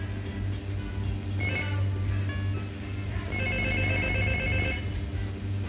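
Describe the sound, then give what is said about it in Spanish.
Telephone ringing during a staged listener call, with bright trilling rings arriving in bursts over a steady low hum and no talk. “Espera, que están llamando,”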